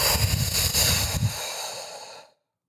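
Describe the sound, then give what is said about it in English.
A slow, steady exhale through the mouth during a guided breathing exercise, a soft rush of breath lasting about two seconds before it fades into silence. “inhale so that your belly fills up. Hold it, hold it, hold it. And exhale through your mouth slowly.”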